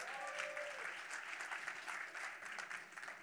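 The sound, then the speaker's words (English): A church audience applauding the worship team at a morning service, dense, steady clapping that continues without a break for the whole clip. “Would you give it up for the worship team this morning?”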